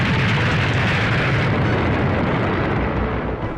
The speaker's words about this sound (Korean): 이윽고 포탄 서너 발이 구성 부근의 큰 길에서 터졌다.